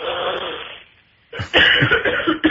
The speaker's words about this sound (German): Da muss man mal husten.